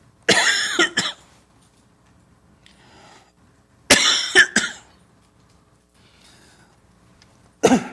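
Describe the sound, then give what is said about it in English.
A preacher coughs from a catch in the throat: sharp, harsh coughs in three separated clusters, the first two holding several quick bursts, loud against near-silence. “Just a little catch in my throat.”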